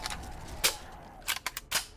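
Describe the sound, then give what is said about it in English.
Sharp MP5 submachine gun shots from a video game's burst-fire mode: a single crisp crack, then a quick cluster of several snappy shots in rapid succession, loud against a quiet background. “MP5 burst fire.”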